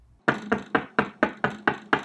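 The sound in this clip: Knocking on a door: eight sharp, evenly spaced knocks in a steady, brisk rhythm, each loud and crisp with a short decay, and no voices.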